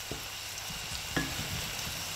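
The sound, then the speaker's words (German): Onions, ginger and chili sweating in oil give a soft, steady sizzle with light stirring. The hiss stays faint and even throughout. “Als erstes schwitzt sie Zwiebeln, Ingwer und Chili in Öl an.”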